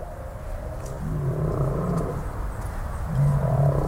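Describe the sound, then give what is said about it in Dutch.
Great whales sing in the sea with long, low moaning tones and drawn-out calls that swell over a continuous rumbling wash and grow louder toward the end, without voices. “Het water stroomt vrij en in alle zeeën klinkt opgelucht het zingen van de grote walvissen. De zee is nabij, luister maar.”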